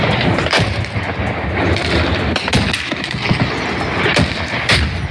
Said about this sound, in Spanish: Y durante toda la noche, el ejército pakistaní ha estado bombardeando Kabul.